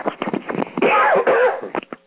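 Coughing and throat clearing from a man with a bug in his throat: a run of short, rough bursts, then a drawn-out raspy clearing, then a few more brief bursts.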